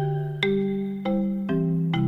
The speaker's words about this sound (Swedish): Marimba är nationalinstrumentet i Guatemala, så vi kan lyssna på det för att få lite feeling för det.